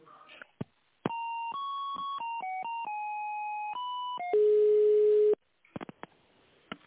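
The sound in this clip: Electronic telephone line tones play while a call is being transferred, stepping through a short sequence of pitched beeps. A louder, steady single tone follows, then a few faint clicks.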